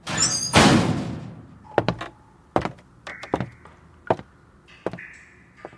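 A door shuts with a heavy, noisy thud, followed by several sharp knocks and metallic clicks in an uneven rhythm as it is locked.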